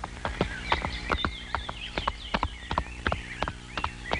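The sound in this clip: A horse walks with hooves clip-clopping: many evenly spaced, sharp hoof strikes in a steady rhythm, fairly faint, with no talking.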